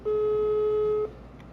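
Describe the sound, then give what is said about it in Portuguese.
A ringback tone from an outgoing phone call: one steady, mid-pitched beep lasting about a second, then a low background hum. “Eu tô ligando sem querer não, filha da puta, atende.”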